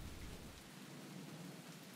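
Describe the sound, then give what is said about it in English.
A heavy rain downpour falls over muddy trenches in 1917 as a dense, steady hiss. A deep low rumble sits under it at the start and then drops away after the first moments. “Dark clouds have gathered above us, and the heavens had opened up with a relentless downpour. The rain has turned the trenches into rivers of mud and filth”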